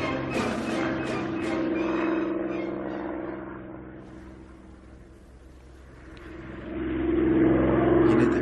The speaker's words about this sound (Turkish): Akşamın 8'inde bile uçak sesi.